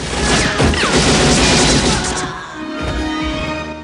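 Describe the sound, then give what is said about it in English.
Gunfire rings out in a film shootout with flames nearby, heavy cracking blasts and crashing bursts packed tightly in the first two seconds before settling into a quieter, sustained tail. “A man in a dark jacket fires at Forrest, who blasts back.”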